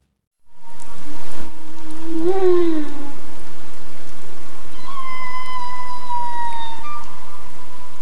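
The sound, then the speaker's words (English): Humpback whales call to each other in Glacier Bay, Alaska, in summer: a short wavering moan, then a long, high, drawn-out tonal call that slowly falls in pitch, over a steady hiss. “This is the sound of humpback whales calling out to each other in Glacier Bay, a national park on the southeast tip of Alaska where the whales come for the summer.”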